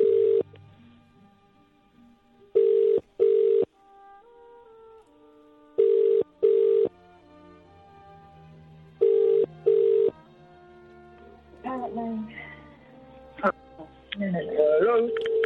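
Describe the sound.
Telephone keypad tones as a call is dialled back: six short, loud beeps in three evenly spaced pairs over a faint steady hum, followed by murky voices and line sounds.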